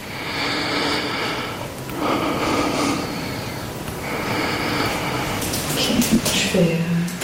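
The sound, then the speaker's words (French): Deep breaths through an open mouth during a lung auscultation exam: about three slow, broad, airy breaths in and out that rise and fade, with a voice briefly heard near the end. “Alors, je te laisse déjà faire l'auscultation pulmonaire complète. Hein. Ouais. Ok. Alors, je voulais juste respirer profondément la bouche ouverte.”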